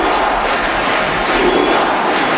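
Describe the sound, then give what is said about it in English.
Crowd cheering at a baseball stadium in Cuba during a presidential visit, a loud, dense, steady roar of many voices that never breaks. “Barack Obama went to visit Cuba and Raul Castro to the cheers of the crowd there at the baseball stadium?”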